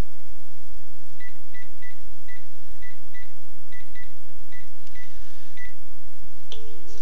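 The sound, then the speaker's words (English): Telephone keypad tones as a number is dialed, many short, evenly pitched beeps in quick groups, fairly faint above a constant hiss. “Keep the number secret. Oh, wait, I have to dial a 1.”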